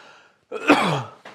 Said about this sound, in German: Man merkt es auch, ne? Die Husterei, die Schnauferei.